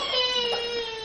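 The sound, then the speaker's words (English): A baby crying out in church: one sustained, high-pitched wail with a clear tonal quality, held steadily for about a second at moderate loudness. “That babe crying out is one of the most beautiful sounds the church can enjoy to hear.”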